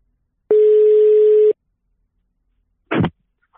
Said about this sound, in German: Also rufen wir ihn einfach mal an